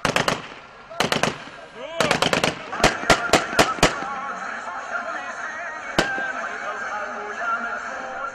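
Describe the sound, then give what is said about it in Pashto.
Celebratory gunfire from armed rebels in Syria greeting evacuees arriving in Idlib from Aleppo: many sharp, loud shots in quick clusters and short bursts, then a lone shot, over a background of voices. “د بشار الاسد مخالف وسلوالو په ډزو تود هرکلی وکړ”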